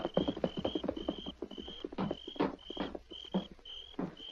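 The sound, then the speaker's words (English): Horses being led around the corner of a house clip-clop in many quick, irregular hoof strikes, with high, thin insect-like chirps pulsing over them. No one speaks. “Get the horses around the corner of the house so they can't be seen from the cafe.”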